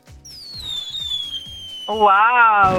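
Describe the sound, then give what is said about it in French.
A whistling firework streaks with a long, bright whistle that slowly falls in pitch, followed by a louder crackling burst at the end while a voice exclaims. “Nous avons payé un superbe feu d'artifice pour toi”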